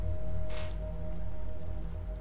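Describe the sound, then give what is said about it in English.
Rain falling outdoors in a large city, a steady soft hiss with a low hum beneath it and no voices. “The rain is falling onto you.”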